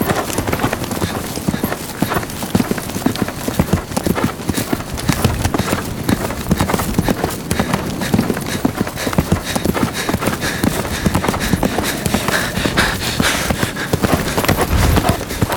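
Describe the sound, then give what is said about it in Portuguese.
A white horse being ridden, its hooves clip-clopping in a steady, brisk rhythm of many sharp, loud hoofbeats that continue without pause throughout. “está montado num cavalo branco”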